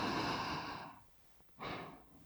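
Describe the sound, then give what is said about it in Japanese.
Deep breathing as someone follows a soothing prompt to inhale. A long, breathy draw of air is followed by a quiet pause and then a second, shorter breath, soft and unvoiced. “深呼吸、深呼吸、吸って”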